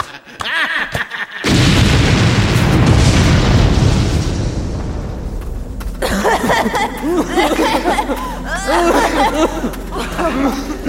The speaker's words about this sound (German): Hat den Schacht gesprengt. Verschüttet.